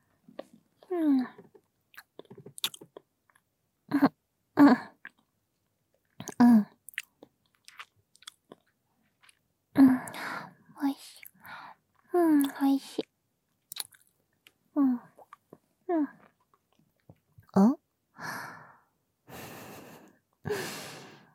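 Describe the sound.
Chewing and soft eating sounds from someone eating a chocolate pie, mixed with hummed, moaning vocal sounds and breaths in an uneven series of short bursts.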